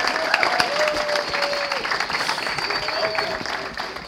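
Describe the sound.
Applause from a church audience welcoming a speaker to the front: dense, steady clapping that carries evenly for about four seconds, with a faint crowd murmur mixed in.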